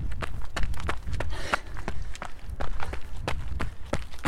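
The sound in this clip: Running footsteps pound along the Timberline Trail 600 through a mossy cascade forest. Many quick, evenly spaced strides hit in a steady, brisk rhythm, with no voices.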